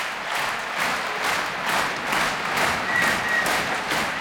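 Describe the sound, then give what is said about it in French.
Concert audience in a château park applauding a young Russian pianist who returns to the stage for an encore: steady, moderately loud clapping that swells and eases in a regular pulsing rhythm, with a few faint cheers. “Et le jeune pianiste russe revient sur scène acclamé pour un nouveau rappel et un nouveau cadeau.”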